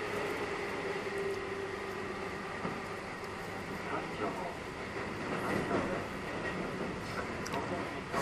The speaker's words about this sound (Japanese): 今日は駅で吹き込んでみようかなって思って吹き込み始めたら電車が来てしまったからね